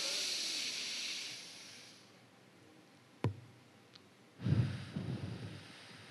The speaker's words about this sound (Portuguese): Respira até encher o pulmão todo. Segura três segundos e solta devagar pela boca.